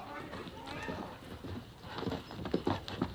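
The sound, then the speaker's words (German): Hoofbeats of a horse galloping during a desert chase sound as quick, uneven clip-clops that grow louder and sharper toward the end. “Er springt auf den Rücken seines Pferdes. Galopp”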